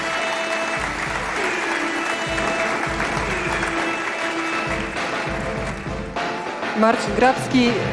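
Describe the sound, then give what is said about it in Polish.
Sustained audience applause at a music awards ceremony as a record label publisher accepts an award on behalf of a rap artist; a steady, dense wash of clapping that swells slightly louder near the end. “Wielkie brawa.”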